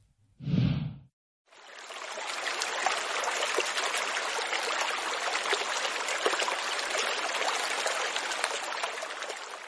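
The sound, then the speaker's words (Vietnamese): Water pours steadily from a height into a lake, a loud, unbroken rushing roar that lasts to the end after a brief low thump at the start. “Tại Thập Vạn Đại Sơn, nước của thiên trì chảy qua vô lượng nhai, từ trên trời rơi xuống đổ vào Tiểu Thiên Hải.”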